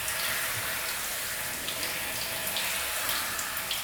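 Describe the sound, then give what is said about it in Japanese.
Shower water runs in a steady, bright hiss of spray that stays loud and even throughout, with no talking. “シャワー温度で代謝も高めたいから、”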